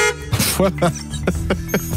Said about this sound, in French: j'ai sorti les bruitages. L'enfant s'amuse. Non, mais je me suis dit, tiens, klaxon, voilà.